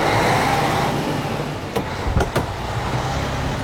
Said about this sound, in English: He's driving off.